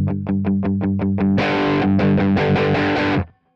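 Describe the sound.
Electric guitar played through a Kemper Profiler amp profile set to low gain (3.3) with natural reverb: a run of quick picked notes leads into loud, sustained strummed chords that ring out, dynamic and slightly crunchy, before stopping abruptly.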